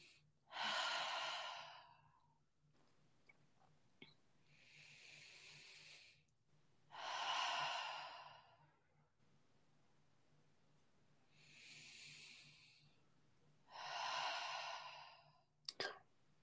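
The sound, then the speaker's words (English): Deep, slow breaths during a tarot reading, each a long airy hiss of about two seconds, in and out, separated by quiet pauses and followed at the end by a couple of short clicks. “take three deep breaths, like three deep breaths.”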